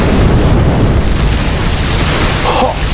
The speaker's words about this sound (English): That was quite a shot.